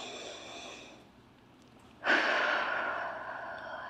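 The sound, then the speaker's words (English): A group taking a deep breath in and out together during a church sermon: a soft drawn-in breath, a brief pause, then a strong sighing exhale that starts abruptly and fades slowly. “we're going to take a deep breath in and a deep breath out. So just do that with me. Do it one more time.”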